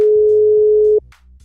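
A steady, single-pitched telephone dial tone sounds while a call is being placed. It holds loud and even for about a second, then cuts off, leaving only a faint low hum.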